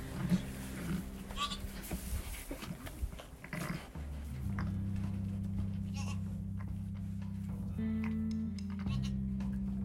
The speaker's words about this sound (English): Babette greets her new baby. It's a girl.